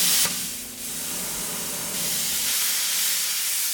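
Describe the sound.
Steady, loud hissing roar of a cutting torch scoring the head of a bronze statue that is being taken apart for melting at a foundry. The hiss runs unbroken, dips briefly early on, then continues evenly with no voices.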